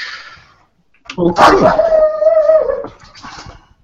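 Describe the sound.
A female dog howls: one drawn-out, loud tone that sags slightly in pitch, with some brief, rougher noise at its start and fainter sounds afterward.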